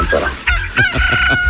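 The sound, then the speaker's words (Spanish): A rooster crows loudly in the early morning, one brief, harsh, strained call that cuts off quickly. “Todo está dormido mi gallo, todo está dormido el gallito. Ya levanta ese gallo, son 5:25.”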